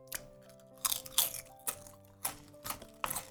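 Someone chewing and crunching food with the mouth: several crisp crunches come in an irregular rhythm, fairly quiet and alone without talk.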